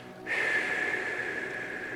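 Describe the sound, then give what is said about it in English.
A long breath is exhaled through the mouth during a relaxation breathing exercise. After a brief quiet moment it becomes a soft, steady, airy rush that holds to the end, with no talking. “Stay relaxed. Exhale it all out.”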